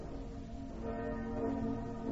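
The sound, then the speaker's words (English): An alarm bell rings in a dramatized battle scene, a steady, sustained metallic tone with lingering overtones that swells slightly louder partway through, with no voices. “Ring the alarm bell.”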